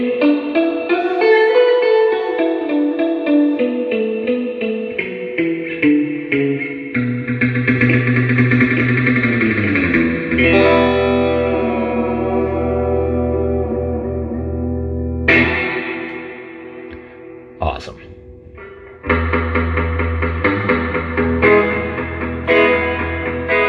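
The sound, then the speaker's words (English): An electric guitar plays through a Deluxe Reverb amp with a Harvard reverb added, giving a drippy, treble-bright wash. Sustained chords and single notes ring out with long reverb tails, broken by a few short pauses. “So it's got Harvard reverb plus the deluxe reverb. That Harvard reverb gives that drip and that extra highs, the extra treble boost kind of.”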